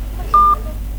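A single telephone keypad tone from pressing a key sounds as a short, steady electronic beep lasting about a fifth of a second over a constant low hum.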